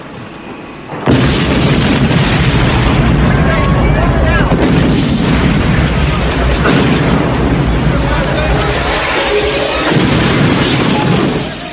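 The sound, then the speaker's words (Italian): A loud explosion bursts in suddenly after a short, quieter lead-in. It gives way to a sustained roar of further blasts and rumbling that stays loud and dense to the end. “Bel colpo. Via, presto! Sta scoppiando tutto!”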